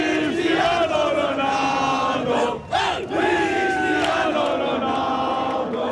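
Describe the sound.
Football fans cheer for Portugal in a loud, sustained crowd roar full of shouting voices, which drops briefly in the middle before swelling back to full strength.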